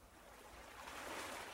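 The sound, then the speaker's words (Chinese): Calm sea waves lap on a beach in a faint, steady wash of noise that swells slightly toward the end, with no voices. “平静的海浪拍打着海滩，彰显了大海和陆地的和谐统一。”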